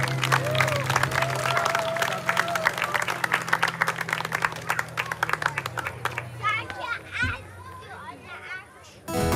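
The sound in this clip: An audience applauds to thank a performer, with many hands clapping rapidly and loudly for about six seconds. The clapping then thins out into scattered claps as people begin talking.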